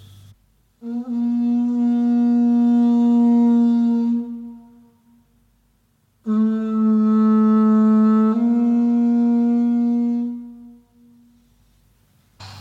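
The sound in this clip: Two long, loud, sustained notes come from an ivory trumpet from the Congo played with its finger hole open. Each blast holds a low, reedy, buzzing tone for several seconds, separated by a short silence.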